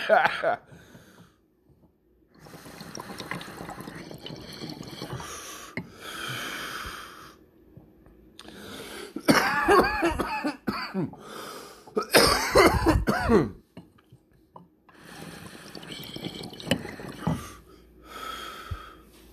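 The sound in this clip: Harsh, repeated coughing and throat clearing after very big hits of smoke, coming in loud bursts with snorts and wheezy gasps between them, mixed with stretches of talk.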